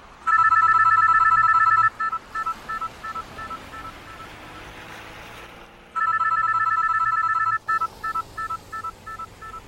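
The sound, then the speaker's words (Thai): An electronic cell phone ringtone sounds repeatedly during a car drive: two long bursts of bright warbling tones, each followed by choppy beeping pulses, loud and with no talk. “Why does your mom keep calling your cell phone?”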